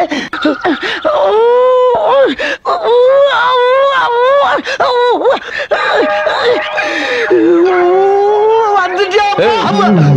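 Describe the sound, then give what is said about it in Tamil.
Loud, sustained crying with a wavering, wailing voice that sobs and rises and falls in pitch almost without a break for about ten seconds. “இப்ப எதுக்கு அழுகுற?”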